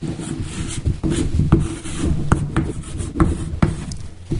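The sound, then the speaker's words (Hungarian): Handwriting scratches across a surface in short, uneven strokes, with a few sharper taps among the rubbing sounds. “Fel is írom ide, hogy Jézus”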